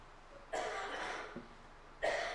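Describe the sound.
A person coughs in two separate bursts: a longer harsh fit first, then a short sharp cough at the end, with quiet in between.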